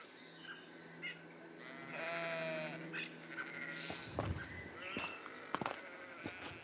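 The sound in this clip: Sheep bleating along a hiking trail, a wavering drawn-out call followed by several shorter, sharper bleats and some rustling, fairly faint overall with no talk.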